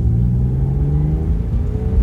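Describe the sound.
A Porsche 911's 320-horsepower engine gives a loud, deep rumble. The tone holds steady and throaty with a slight rough pulse and no voices.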